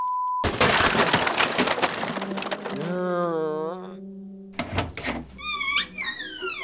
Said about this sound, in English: I was down the hall and heard the loudest crack.